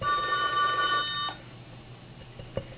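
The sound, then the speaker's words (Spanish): A telephone rings with an incoming call, a steady electronic ringing tone that cuts off after about a second, leaving a quiet background. “aquí hay que responder. A ver, vamos a contestar la llamada. A ver, contestemos.”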